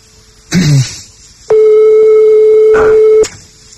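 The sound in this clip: A telephone ringing tone is heard during a call: one steady, mid-pitched buzz lasting about a second and a half, preceded by a short burst of noise.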